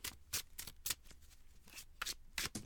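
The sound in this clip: Tarot cards are shuffled and drawn, producing many short, crisp riffling bursts in an uneven rhythm, quiet and dry with brief gaps between them.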